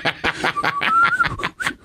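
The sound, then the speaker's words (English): A thin, wavering whistle picks out a basketball team's theme tune in a bad attempt, its pitch sliding between notes over choppy, rhythmic breathy bursts that resemble snickering. “That's my bad attempt at whistling the Harlem Globetrotters theme.”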